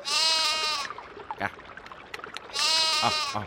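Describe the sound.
A lamb bleats twice, two long, high, harmonic cries separated by a pause with faint scattered noises between them.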